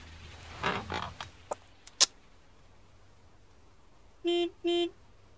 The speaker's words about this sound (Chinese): 直至这车又鸣一声喇叭